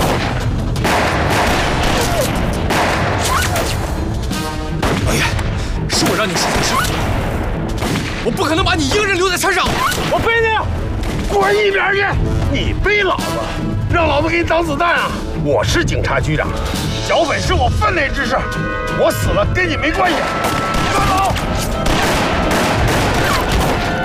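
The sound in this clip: Heavy gunfire in a mountainside firefight against bandits: dense bursts of rifle shots and booming blasts pile up continuously, loud and chaotic, with shouting voices mixed in.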